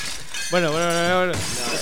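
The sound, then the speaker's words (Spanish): A wine glass of white wine falls and shatters with a sharp crash, while a voice carries a sustained tone through the middle of the sound. “Se le cayeron las cosas. Se me han caído las cosas. Se le cayó igual una copa arriba mío”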